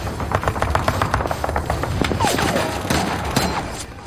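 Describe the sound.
Rifle gunfire in a battle between American and German troops: many sharp, overlapping shots crackle loudly and steadily through the whole clip.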